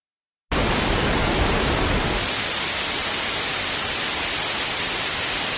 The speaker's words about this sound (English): So let's listen to some of them together. And first one here is balanced noise.